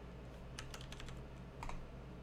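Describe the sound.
Keys clatter on a computer keyboard, a quick faint run of keystrokes followed by a brief pause and a couple more taps.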